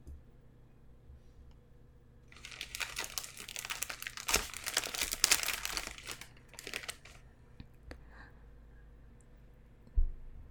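A package is unwrapped with busy crinkling, crackling and tearing of wrapping that builds over several seconds and then thins out. The sounds are fairly quiet, and a sharp knock comes near the end.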